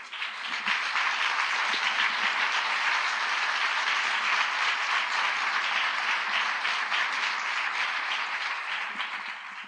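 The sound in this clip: Warm audience applause welcomes a speaker to a communication conference in Québec, a dense, sustained wash of clapping that stays strong for several seconds and eases slightly at the end.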